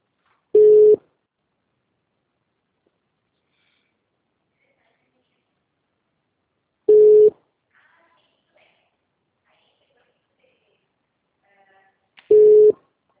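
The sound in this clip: Telephone line tones after a dropped call: three short, steady low beeps, each under half a second, spaced several seconds apart with near-silence between them.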